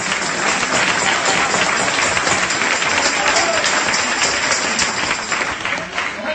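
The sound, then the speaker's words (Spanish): Church audience applauding during a service: dense, continuous clapping that holds a steady, loud level for the whole stretch and dips slightly near the end. “Oiga, oiga estos aplausos, hermano. Lo están grabando, ¿verdad? Que quede bien grabado, viejo.”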